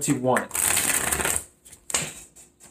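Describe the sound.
Tarot cards being shuffled for a reading: a brisk riffling burst, then a shorter second flutter, with a brief voice at the start.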